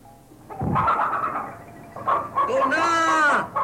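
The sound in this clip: Chickens squawk and cackle as they are chased, with a shrill run of clucking calls building toward the end, mixed in with voices.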